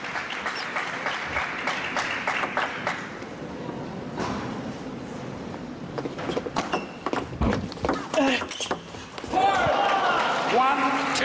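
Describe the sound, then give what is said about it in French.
Tennis racket strokes on the ball during a match: a few sharp, brief pops cut through a steady wash of crowd noise and applause, with the hits bunching together later on. “En train déjà de donner cette impression de frapper de plus en plus fort à chaque coup de raquette.”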